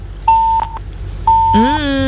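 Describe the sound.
Disconnect beeps as a phone call in a call-in is suddenly cut off: two steady, mid-pitched electronic tones, and a voice starts talking over the end of the second.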